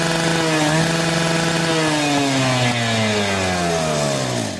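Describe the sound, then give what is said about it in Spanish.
A voice imitates a dentist's drill with a sustained, buzzing whine that holds steady, then slowly sinks in pitch over several seconds. “Así, el torno le suena así a ustedes.”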